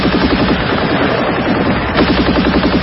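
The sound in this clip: A German MG-34 machine gun fires in a battle with tanks. The gunfire is loud, dense and rattling, continuous throughout with no pauses.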